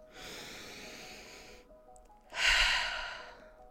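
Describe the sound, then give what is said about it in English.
A single deep breath: a long, airy inhale, a brief pause, then a louder, fuller exhale, with no talking. “let's take a deep breath.”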